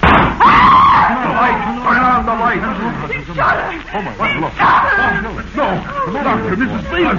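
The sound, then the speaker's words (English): A high-pitched scream in a radio drama breaks out early, then excited voices talk over each other in a loud, tense scene. “Turn on the light. He shot her. Oh, my.”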